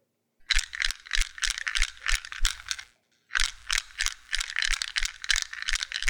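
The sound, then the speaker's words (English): Wooden matches rattle inside a shaken matchbook, a rapid run of crisp, even rattling shakes that stops briefly and then starts again in a second run, loud and alone with no voices. “Yep, it is a it's a matchbook. and this is what it sounds like when you shake it.”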